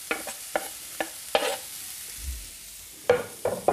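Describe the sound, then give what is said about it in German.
Diced onion frying with mushrooms in a pan, stirred with a utensil: several sharp scraping clicks at irregular intervals over a soft, steady sizzle, with a quiet stretch in the middle before the scraping resumes. “Jetzt nehme ich unsere Zwiebel, die wir schon gewürfelt haben, und gebe sie zu den Champignons.”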